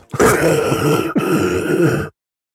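Loud, phlegmy throat clearing, a harsh gurgling rasp in two long bursts separated by a short catch of breath, heard alone without speech.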